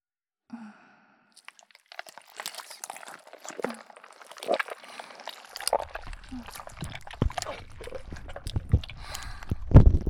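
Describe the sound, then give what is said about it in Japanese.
Thick, almost liquid slime squishing with many soft, wet squelches and sticky crackles. The sounds are quiet and irregular, growing denser toward the end. “ドロッドロの、ほとんど液体のすべすべスライム、お耳にまとわりついて”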